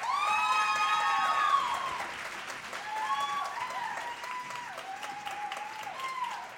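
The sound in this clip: Applause and cheering welcome an entrepreneur to the stage, loudest at the start with whoops rising over the clapping, then easing off gradually.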